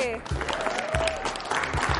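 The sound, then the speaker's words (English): Audience applause in a hall welcoming a very tall football player: a quick patter of clapping, fairly faint, with people talking over it. “Come on, give it up, give it up, give it up, give it up.”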